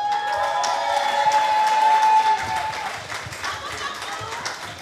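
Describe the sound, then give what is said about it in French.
Audience applause as an ovation for a game show contestant who has just won, a dense wash of clapping that holds for a few seconds and then thins and fades toward the end. “On peut encore lui faire une ovation.”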